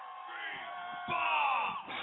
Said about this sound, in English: And there's a cheer.